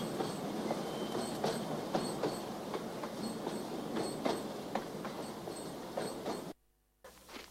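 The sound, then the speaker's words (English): Freight train rolling through an Arizona landscape: a steady, dense rumble with regular clickety-clack from the wheels, loud throughout, then a sudden short drop-out near the end before the rumble returns. “The freight train chugs through the Arizona landscape.”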